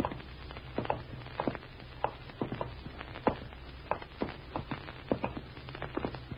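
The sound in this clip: Footsteps walking at an even pace, with many soft, regular thuds over a low, steady background hum and no voices.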